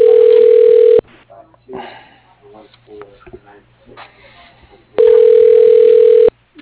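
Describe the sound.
Telephone dial tone on a line before a call to a body shop: a steady, loud, unbroken hum fills the first second, then returns near the end, with a person talking in between.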